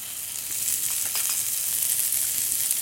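Onions fry in hot vegetable oil with a steady, bright hiss and crackle that holds at an even level throughout, with no voices heard.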